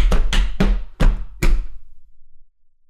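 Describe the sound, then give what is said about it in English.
Something is slammed in a bedroom in a cartoon scene: five loud, hard knocking thumps land in quick, slightly uneven succession, then ring out and fade to silence. “And for the piece de resistance, I'll slam this in the bedroom.”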